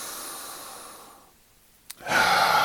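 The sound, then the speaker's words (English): Deep cleansing breaths during a guided breathing exercise: a long airy exhale fades to quiet, a small click follows, then a strong, loud breath rushes in. “So if you want to inhale with me, exhaling out, we'll inhale again.”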